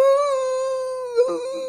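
A puppy in a pet cage whines in one long, steady, high-pitched note that dips briefly and breaks up near the end.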